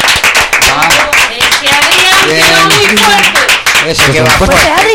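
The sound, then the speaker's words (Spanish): Applause for a director: many rapid claps fill the whole stretch, with a loud voice talking over them throughout. “Un aplauso para el director,”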